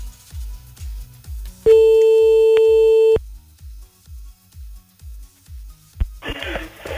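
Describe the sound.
Telephone line tones sound as a call is placed to a listener: a rapid, even low pulsing runs throughout, broken by one steady, bright tone lasting about a second and a half, with a short burst of noise near the end.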